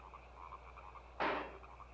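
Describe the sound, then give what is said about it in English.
Frogs croak in a video game cutscene, a faint, regular series of short pulsing calls, interrupted once by a brief, louder rushing burst before the croaking resumes. “Alright, cutscene. There's more frogs. They're really driving home the point that there's a lot of frogs in this place.”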